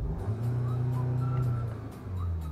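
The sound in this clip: A Skoda car engine revs from idle toward 3500 rpm, heard from outside the car as a loud, steady droning hum with a brief dip in level near the end before it picks up again.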